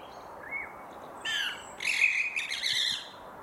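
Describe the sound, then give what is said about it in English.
Sparrows chirping in an open landscape, a few short, high, scratchy calls that start faint and then come in denser, overlapping bursts over a quiet background hiss. “The sounds that sparrows make are not really one of the bird sounds that we think are especially pretty or aesthetically pleasing.”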